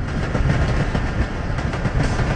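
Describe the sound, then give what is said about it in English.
Loud, steady rumble and rhythmic wheel clatter from an electric train on rails, a heavily guarded line hauling sulfur from a mine down to a harbour in 1942. Repeated clicks run through the rolling noise, with no voices. “Electric trains carried the sulfur from the mine down to the harbour in Oetgangen.”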